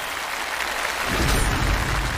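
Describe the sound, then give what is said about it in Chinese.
Applause breaks out on a health quiz show after a correct answer: a soft hiss of clapping swells into louder, dense applause about halfway through and holds there. “回答正确，掌声鼓励。”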